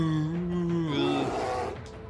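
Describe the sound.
A voice imitates a transformed bear groaning in frustration, giving a low, sustained voiced groan that wavers partway through and then trails off.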